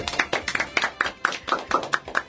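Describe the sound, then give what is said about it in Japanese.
Brisk clapping from a small group, many sharp hand claps in a quick, fairly even rhythm, with no talking. “拍手。”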